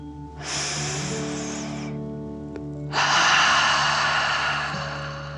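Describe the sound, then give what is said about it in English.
A slow, deep breath drawn in, then after a short pause a longer, stronger breath out, both airy and loud over a soft sustained musical drone. “Feel the warmth and take a deep dragon breath in and out.”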